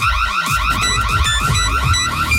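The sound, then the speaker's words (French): An electronic alert jingle for the RMC radio coffre cash giveaway: loud, warbling, siren-like sweeping tones with bright high beeps layered over a low pulsing bed, sounding continuously. “Dès que vous entendrez cette alerte.”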